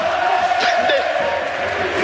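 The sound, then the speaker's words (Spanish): Crowd shouting at Luis Aragonés fills the Palacio de los Deportes de Madrid before a boxing event, a loud, continuous mass of voices with a commentator talking over it. “¡Y ahí termina! Gritos a Luis Aragonés,”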